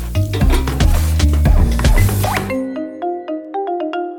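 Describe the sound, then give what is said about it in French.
Rice being stirred and cooked in a pan: busy scraping and clinking of a utensil against the pan over a sizzle, then a quieter run of light, ringing taps. “j'ai toujours l'impression que le riz, je trouve qu'il a énormément de mal à être cuit convenablement. Encore un peu.”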